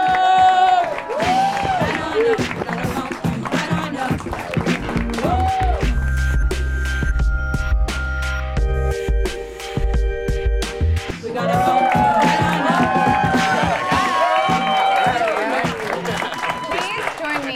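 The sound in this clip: Crowd cheering and applause greet a DJ at a live event, with whoops rising over a steady, loud bed of sound that stays dense for the whole stretch; voices talk through it.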